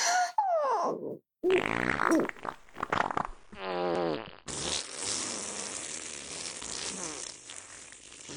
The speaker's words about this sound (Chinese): 恐怖的放屁声回荡不绝。